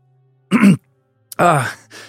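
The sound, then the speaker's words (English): A voice imitates a man clearing his throat with two gruff, voiced bursts, the second longer and rougher, then a brief softer sound. “cleared his throat”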